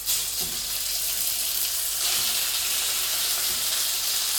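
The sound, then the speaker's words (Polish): Cut chicken fillet pieces frying in a pan, the moist meat spattering a little: a steady, bright sizzling hiss throughout, with a few faint clicks from stirring beneath it and no talking. “Filet mam pokrojony, wobec powyższego przenoszę go też na patelnię.”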